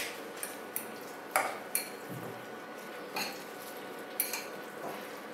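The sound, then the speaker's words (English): Pork mince being mixed in a bowl with egg white, spices, onion and garlic: faint, irregular clinks and light taps of a utensil over a soft, steady background, with no talk. “And now mix everything together nicely.”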